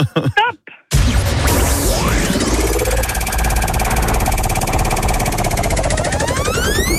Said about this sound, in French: je vous laisse lancer notre roue à épreuve.